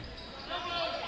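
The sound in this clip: A basketball is dribbled up the court during a game, its bounces running under a commentator's steady play-by-play talk.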